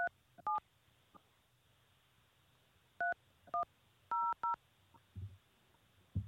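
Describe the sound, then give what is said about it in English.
Telephone keypad DTMF tones entering a six-digit PIN on a phone conference host line: several short, sharp two-tone beeps in an uneven rhythm, grouped with pauses between them, and a faint low thump near the end. “Please enter your show or meeting number and press pound. Enter your 6-digit PIN number.”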